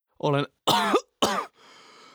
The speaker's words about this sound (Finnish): Nyt hengittäminen on raskasta ja yskä on kova.